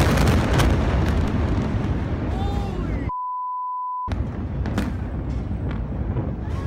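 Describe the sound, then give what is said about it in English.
Explosions thunder across a port city, with dense, roaring rumble and a few sharp bursts. Partway through, the noise cuts out for about a second and a steady high beep sounds alone. “The entire port city right now smells like chemicals. So that's got to be great. But listen to these explosions.”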